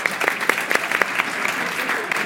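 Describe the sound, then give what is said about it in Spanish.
An audience applauds a volunteer called up on stage: dense, steady clapping from many hands that holds at an even level throughout. “Un aplauso, por favor, para él.”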